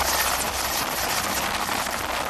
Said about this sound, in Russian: Ударные К-52 работают парой. Каждый их боевой вылет сопровождает транспортный Ми-8.